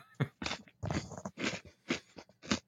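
Crunchy chewing of a s'mores-flavored, graham-influenced Oreo cookie: many quiet, crisp bites and crunches in an uneven rhythm, each one a short dry burst.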